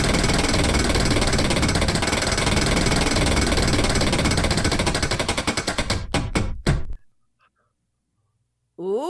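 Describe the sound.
A prize wheel spins with rapid ratcheting clicks that slow and spread apart as it loses speed. The clicks stop abruptly, followed by near silence and a brief sound at the very end.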